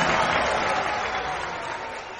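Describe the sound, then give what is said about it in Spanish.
An audience applauds in a dense, crackling wash of clapping that tapers off a little toward the end. “Aplausos, Gino.”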